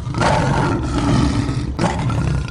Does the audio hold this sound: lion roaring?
yes